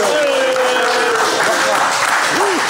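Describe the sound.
An audience cheers and applauds in a dense, steady roar of clapping and shouts. The noise holds at an even, fairly loud level for the whole stretch.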